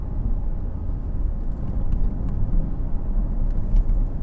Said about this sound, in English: Excuse me a minute while I just do a little bit of driving here.